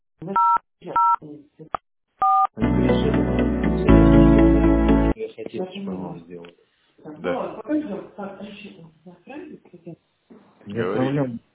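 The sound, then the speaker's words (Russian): Telephone keypad tones dial an extension number on a company's automated phone line: a few short two-tone beeps, then a louder sustained tone, followed by people talking. “Если вы знаете внутренний номер сотрудника, наберите.”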